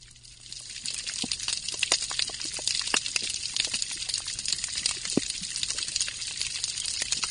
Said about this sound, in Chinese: 除了鱼会唱歌之外呢，虾子也会唱歌。我们来听一听枪虾的声音。